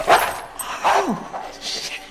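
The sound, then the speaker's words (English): A Rottweiler vocalizing indoors with a few short barks and yips and a whining note that slides down in pitch. The sounds are fairly loud and alone, with no talk. “Oh, shit. A Rottweiler. That's not no dog. That's family. With sharp, bared teeth.”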